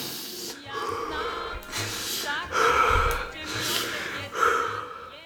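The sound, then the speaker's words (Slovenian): A group takes deep breaths in and out together, following an instruction to do it three times. Several breathy, gasping inhales and exhales rise and fall, with faint voiced murmurs mixed in. “Najprej bomo vsi skupaj naredili en uh, velik vdih, izdih, trikrat lepo.”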